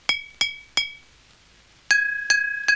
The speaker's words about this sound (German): Man schlägt mit einem Bleistift gegen beide Flaschen.